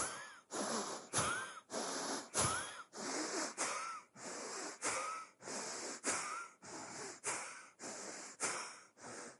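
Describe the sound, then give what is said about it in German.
Forceful belly breathing in a yoga power-breath exercise, a long series of quick, breathy rushes in and out repeating at an even, steady pace. “Power Breath heißt feste ein- und ausatmen, aber nur mit dem Bauch. Sieht dann so aus.”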